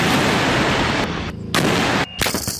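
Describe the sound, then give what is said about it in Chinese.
Howitzer artillery firing in a live-fire tactical exercise, direct and semi-direct fire: a loud, continuous blasting roar broken by a few abrupt drops and renewed booms, with no voices. “榴弹炮分队通过直瞄与半直瞄射击方式，率先展开首轮火力打击。”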